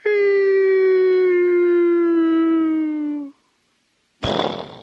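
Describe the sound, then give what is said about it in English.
A voice imitates a cartoon coyote falling into a canyon with a long, loud, buzzy sustained tone that slowly slides down in pitch for about three seconds. After a pause, a sudden noisy burst follows. “Sometimes I like to think of Wile E. Coyote falling down in the canyon after the roadrunner's been chasing him, and he goes,”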